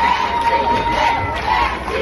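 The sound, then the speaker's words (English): A crush of supporters and journalists shout outside a courthouse, a loud, continuous mass of overlapping voices and cheers. “Surrounded by a crush of supporters and journalists, Gisèle Pelicot was escorted by police down the front steps of the courthouse. Thank you, Gisèle, they shouted from the crowd.”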